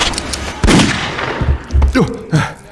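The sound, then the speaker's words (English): Gunshots fired at an attacking creature: a few sharp, loud bursts at irregular intervals, with rougher noisy sounds between them. “Hit it! The butt of your gun! It's falling back for a moment, but it's coming back. Shoot! Shoot!”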